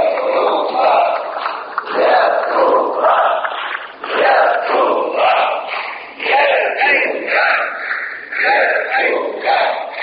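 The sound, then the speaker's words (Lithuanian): Deputies in the Lithuanian parliament stand arm in arm and chant a cherished word in unison. The loud crowd chant repeats in five regular phrases about two seconds apart, with short dips between them. “Deputatai sikabinė rankomis atsistoja, skanduoja mums brangų žodį.”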